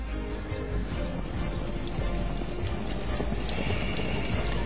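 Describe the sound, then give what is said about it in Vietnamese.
Horses gallop away as troops flee a battle, a loud, dense and continuous rush of rapid hoofbeats that runs without a break from start to finish. “lúc này cuống cuồng thúc ngựa bỏ chạy”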